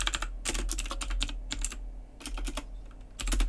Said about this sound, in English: So I'm just going to type my results down so I can do a bit of a summary when we get to the end of these.